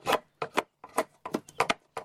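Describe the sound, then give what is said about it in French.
A drawknife shaving material off a piece of wood that is clamped in a foot-operated shaving horse: a rhythmic series of short, dry rasping strokes separated by brief gaps. “On prend une plane et on va retirer de la matière”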